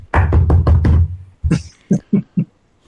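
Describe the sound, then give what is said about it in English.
Firm police-style knocking on a door: a rapid run of heavy, booming knocks, then a short pause and a few sharper, separately spaced raps, with no talk. “you head over and somebody knock on the door. Cop knock.”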